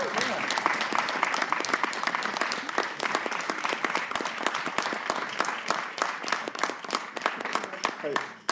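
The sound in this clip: A studio audience applauds as a special makeup effects supervisor comes on as a guest. The clapping is dense and steady, with cheering mixed in, and holds at the same level until it drops off sharply at the very end.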